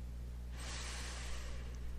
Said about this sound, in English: Nice deep breath.